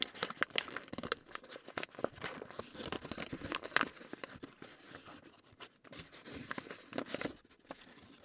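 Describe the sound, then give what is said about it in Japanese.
Origami paper crinkles and crackles as it is folded and creased into a paper wastebasket, with many sharp, irregular rustles and snaps and no talking. “開いた時にしっかり固定されるように折り目をつけて、最後に開いたら、”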